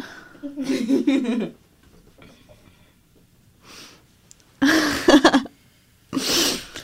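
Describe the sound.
A sharp, breathy sneeze bursts out between stretches of people talking, loud and noisy against the quieter background.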